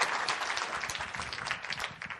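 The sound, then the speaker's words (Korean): Audience applause at a church year-end awards ceremony: steady, dense clapping that holds for the whole clip, fairly faint and without talk over it. “조연희 선생님, 귀염둥이 최낙정 집사님, 우리 박수 한번 쳐주시기 바랍니다.”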